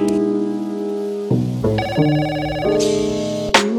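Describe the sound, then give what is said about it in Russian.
A telephone ringing at night with an electronic melodic ringtone: steady, sustained tones that step through several different notes in turn, loud and alone with no talking. “3 часа ночи позвонил Сережа. Алло.”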